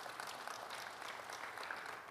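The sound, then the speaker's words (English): A church audience applauds the worship team, a dense, steady clatter of many hands clapping that holds evenly from start to finish. “Appreciate our worship team. These guys work hard. Come on, let's give it up for these folks.”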